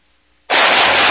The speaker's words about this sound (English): nice shooting